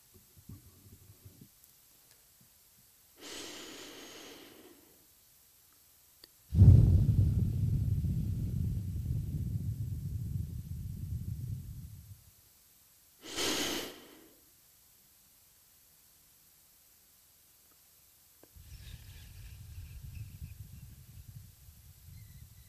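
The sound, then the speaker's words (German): Slow, deep breathing in and out during a relaxation exercise: a few long, soft, airy rushes separated by quiet pauses. One drawn-out breath is noticeably louder and lower, and no one talks. “Einatmen und ausatmen.”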